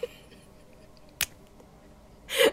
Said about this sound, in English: Oh, you guys can listen to the pen click.